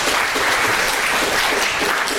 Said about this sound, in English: Go ahead, clap. There you go.